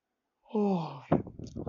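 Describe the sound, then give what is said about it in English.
A person yawning in very cold weather: a drawn-out voiced tone that slides downward, then a breathy exhale and a few soft mouth sounds, all fairly faint. “yawn of the day”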